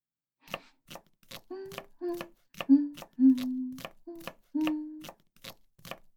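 Food being chopped while cooking: a steady, even series of crisp knife strikes on a board, about a dozen in a row, with short hummed vocal sounds mixed between the chops.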